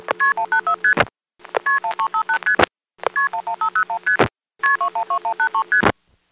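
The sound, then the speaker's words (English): Multi-frequency (MF) telephone tones signal a dialed number on the phone network: four rapid runs of short, clean pitched beeps, each run separated by a brief silence, heard alone. “By dialing 7586 plus 3 to 6 digits, of course making use of extra digits when necessary, it's possible to hear any 3 to 6 digit number MF'd.”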